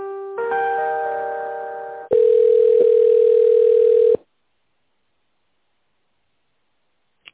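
Telephone tones sound while a call is being connected: a short harmonic tone fades slightly, then a steady single-pitched tone holds for about two seconds before silence.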